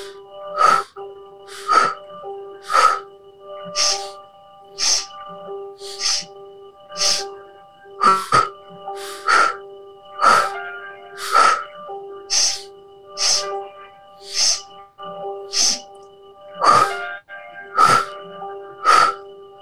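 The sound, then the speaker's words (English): Pulse breathing during a guided exercise, in through the nose and out through the mouth: many sharp, forceful breath bursts repeat about once a second in a steady rhythm over a faint sustained tonal background. “And now we're going to shift into that pulse breath. And we're going to do three of those as well. Inhaling in through the nose for four. Out through the mouth.”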